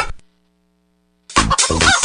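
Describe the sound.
Chicken clucking: a short cluck at the start, a stretch of silence, then a louder run of clucks to the end.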